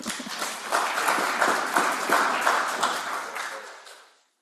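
An audience applauds to welcome debaters to the table, with dense, steady clapping that gradually fades out to silence at the end.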